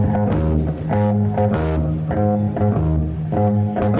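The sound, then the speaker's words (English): A bass guitar plays in a conventional style: loud, clean, repeating notes in a steady rhythmic pattern with full low harmonics. No voices are heard. “Well, the basic difference is that most bass players sound like this.”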